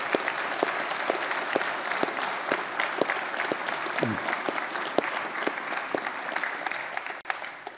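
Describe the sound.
Audience applause honouring a writer: dense, steady clapping that continues throughout, with a few sharper individual claps standing out.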